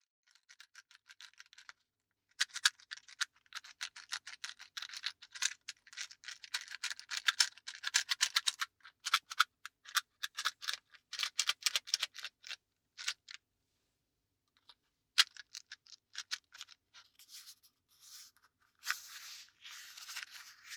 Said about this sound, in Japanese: マッチって好き。レトロな柄の箱、シャカシャカした音、